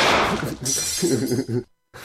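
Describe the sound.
Porcelain rabbit figurines shatter from a gunshot: a sharp breaking crash with clinking fragments at the start, followed by people talking, then sudden near-silence.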